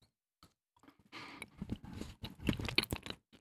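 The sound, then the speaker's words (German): Someone bites into crunchy food and chews: a burst of crisp crunches follows a few faint clicks, settling into rhythmic chewing noises. “Jetzt beiße ich einmal rein.”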